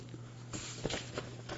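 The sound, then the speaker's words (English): Paper rustles as a page of a long printed article is turned: a few soft, brief crinkling swishes spread across the moment over a faint, steady low hum. “I have to get to the next page here. It's a long article, as I said. There we go.”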